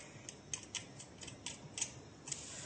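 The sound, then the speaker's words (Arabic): Garlic cloves squeezed in a garlic press, two at a time, give off a series of faint, light ticks and clicks spread irregularly over a quiet background. “بنحط الثوم جواتها، فينا نحط اثنين او ثلاثة، خلينا نحط اثنين، وبعدين بدنا نكبس، يعني بدنا نضغط عليها مشان ينزل الثوم من تحت.”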